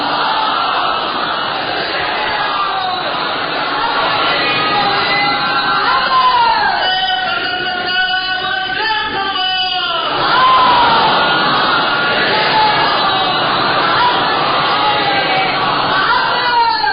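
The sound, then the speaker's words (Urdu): A crowd at a religious lecture chants salawat in unison in answer to a call, a dense, sustained mass of voices that holds steady and swells slightly near the end. “نعرہ سلوات”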